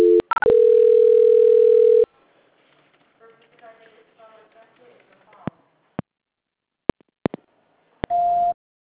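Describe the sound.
Telephone line tones sound during a call transfer: a loud steady tone for about two seconds after a couple of short beeps, then a faint low murmur, scattered sharp clicks, and a brief higher tone at the end.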